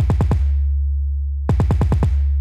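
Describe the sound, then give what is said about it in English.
808 bass hits with cut itself enabled, each note stopping the last so the hits stay clean and distinct: a quick run of a few punchy hits, a pause, then another fast burst over a steady low bass drone. “Now I'm going to enable cut itself and it sounds like this.”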